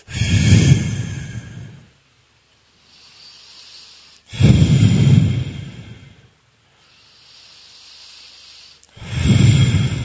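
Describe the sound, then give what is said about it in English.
Three forceful exhales push air out in strong bursts during a breathing exercise done with the arms raised. They come at a steady, unhurried pace, and quieter breaths can be heard between them. “And on every exhale, just energetically push your air out.”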